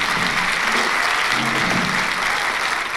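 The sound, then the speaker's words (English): Audience applause for a male performer: dense, steady clapping from many hands that stays loud and even throughout, with no voices standing out. “Let's hear another big hand for this wonderfully talented man.”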